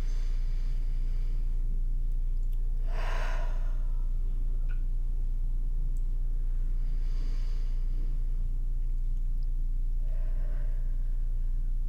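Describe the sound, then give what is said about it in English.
Slow, deep breaths, drawn in through the nose and let out through the mouth, come as a few soft, airy swells spaced several seconds apart. A low, steady hum runs underneath, and no one speaks. “take a few deep breaths in through your nose and out through your mouth”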